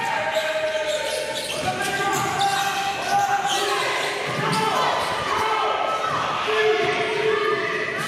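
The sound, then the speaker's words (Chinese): Repeated thumps of basketballs bouncing as a women's team drills dribbling, passing and shooting at a training session in the Philippines, irregular and moderately loud beneath talk. “球员在场上反复练习传球、运球与投篮，也在高强度训练中熟悉彼此的节奏。”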